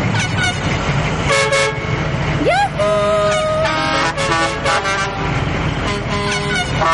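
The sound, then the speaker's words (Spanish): Vehicle horns toot again and again as four trucks decorated with coloured lights arrive and stop. Short blasts and a rising whoop sound over a steady engine rumble, with voices talking. “Llegan cuatro camiones decorados con luces de colores y se detienen ante ellos.”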